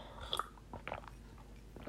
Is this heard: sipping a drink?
yes

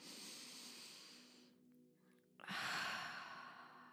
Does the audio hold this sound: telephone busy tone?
no

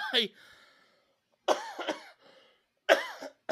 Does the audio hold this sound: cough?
yes

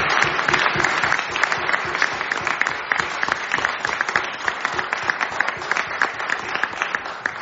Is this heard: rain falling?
no

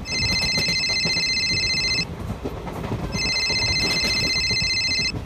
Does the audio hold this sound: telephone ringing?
yes

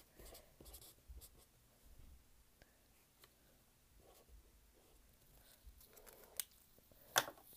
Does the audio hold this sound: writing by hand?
yes

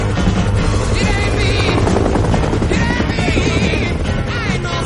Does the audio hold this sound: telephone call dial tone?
no

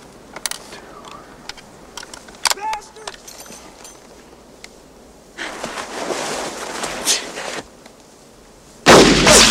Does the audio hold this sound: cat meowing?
no

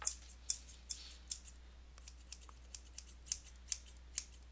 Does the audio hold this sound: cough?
no

